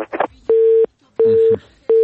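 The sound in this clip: Phone line tone after a call is cut off: evenly spaced, steady mid-pitched beeps, three in a row with the last cut short, following a brief snatch of voice at the start.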